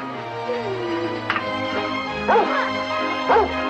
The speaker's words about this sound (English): Looks like we've got us a dog.